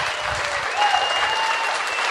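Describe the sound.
Audience applause, a dense steady wash of many hands clapping at a loud, even level throughout, with a faint voice briefly audible within the clapping.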